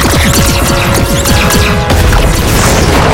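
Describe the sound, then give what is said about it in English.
A loud, dense explosion is heard as a transport tube and cargo ship blow up in a Star Trek: Strange New Worlds scene. It is a sustained roaring crash and rumble with heavy low boom, continuous throughout. “The tube is blown up. The cargo ship is blown up.”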